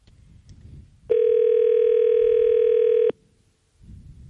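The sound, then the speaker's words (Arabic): A single steady, loud tone about two seconds long rings on an outgoing phone call, with quiet background noise before and after it. “دان الرقم ديال حنان كيصوني، نتمنوا هاد جاوبنا.”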